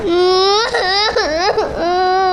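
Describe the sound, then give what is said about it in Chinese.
A young child cries loudly in a sustained, tearful wail. The pitch wobbles and dips through several sobbing breaks before settling into a steadier cry. “你怎么哭了？”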